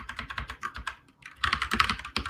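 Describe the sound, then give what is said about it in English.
Typing on a computer keyboard: a fast run of light key clicks that stops briefly near the middle, then resumes a little louder, with no speech. “Let me type this out for you.”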